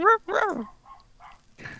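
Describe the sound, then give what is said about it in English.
A pet dog barks at home with two loud, sharp barks in quick succession, followed by a few fainter, shorter yelps and a brief noisy burst at the end. “What's he barking at?”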